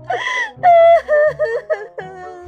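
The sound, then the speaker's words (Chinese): A man whimpers and cries, a voice-acted scene in an audio drama. High, wavering, whining sobs come in several short bursts, loud and alone. “说着，他竟然嘤嘤的哭了起来”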